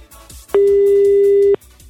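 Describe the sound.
A telephone tone marks a rejected call: one loud, steady, low beep lasting about a second, with faint rhythmic pulses underneath.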